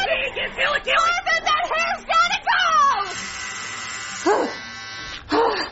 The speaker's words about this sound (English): Okay, look, I'm gonna shave it anyway.